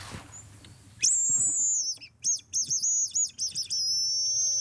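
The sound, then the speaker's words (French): A tit calls in response with a loud run of high, thin whistled notes. Some notes are drawn out and others come in short choppy bursts, after a faint chirp at the start. “Et oui, et c'est la mésange qui nous répond.”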